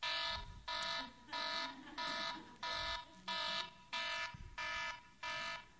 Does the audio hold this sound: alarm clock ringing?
yes